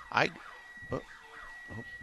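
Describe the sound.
A siren at a horse racetrack warning of a loose horse, a thin, steady, high tone held throughout under a few bursts of nearby talk.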